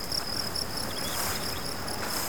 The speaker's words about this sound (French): orchestré par les sonorités des grillons qui chantent la venue de l'été.